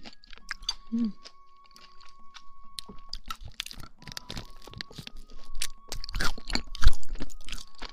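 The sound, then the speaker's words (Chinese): Crunchy chewing of a low-fat protein bar eaten with sugar-free yogurt and berries: many irregular crisp bites and grinding crunches in close succession, growing louder and denser toward the end. “这种低脂蛋白棒的味道，我反而觉得还好，可能我挺爱吃甜的，而且它跟这个无糖酸奶和莓果加在一起就很中和。”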